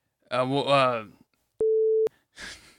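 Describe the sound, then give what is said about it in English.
A censor beep bleeps out a spoken name: one steady mid-pitched tone lasting about half a second, set between stretches of talk. “I'll put a bleep. I haven't put a little censor beep in a while. Okay. So we'll put a little censor beep there.”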